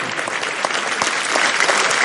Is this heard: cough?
no